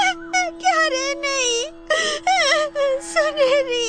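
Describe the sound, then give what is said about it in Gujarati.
Someone cries loudly, with long wavering wails that rise and fall in pitch in a run of sobbing bursts, broken by short gasps, over a faint steady hum. “તું આ મોટે મોટે થી રડે છે એટલે તારી સુનેરી વધુ દુખી થઈ રહી છે.”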